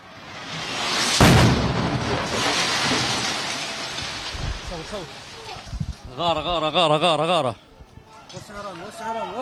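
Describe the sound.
An Israeli airstrike explodes as it hits the Nasser Medical hospital complex. A sudden loud blast near the start rolls into a long rumbling roar, and then a voice speaks urgently over the fading noise.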